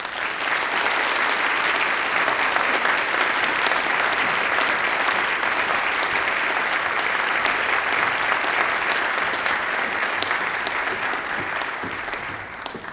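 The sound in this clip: An audience at a university morning event ahead of Martin Luther King Day applauds to welcome a returning speaker, with dense, even clapping holding at a steady loudness for the whole stretch before easing slightly at the end.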